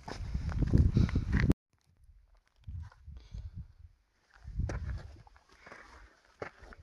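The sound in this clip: A hiker walks a mountain trail in Japan's Southern Alps at night. A loud rustling burst gives way to several quieter, irregular crunching footsteps separated by short silences.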